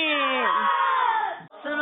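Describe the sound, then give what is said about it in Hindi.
Children chant the Dawat-e-Islami slogan together at the close of a kids' religious programme, a sustained, high unison shout that breaks off briefly near the end and then resumes. “नारा लगाएंगे दावत इस्लामी”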